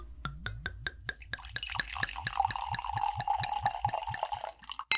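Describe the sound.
Wine, a 2016 Temecula late-harvest, glugs from a bottle into a glass in a quick train of many bubbling pulses that give way to a steadier ringing pour near the end; no one speaks.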